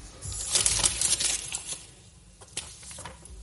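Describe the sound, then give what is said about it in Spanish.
A politician at a parliament speaker's lectern crumples a sheet of paper. Crisp crackling bursts come densely for the first two seconds, then thin out into sparser, scattered crinkles. “Mañueco, cuando llegó a ese sitio, cogió el papel y lo arrugó. Este fue el momento.”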